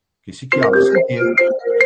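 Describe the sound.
A mobile phone ringtone goes off during a talk, its melodic electronic notes starting after a brief silence and sounding loud and bright through the rest of the moment.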